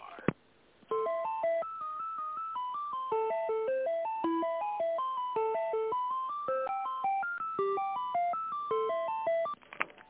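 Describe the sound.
A tinny electronic melody plays over a telephone line while a call is being transferred. It is a steady run of many short, bright, evenly paced notes, with no voices.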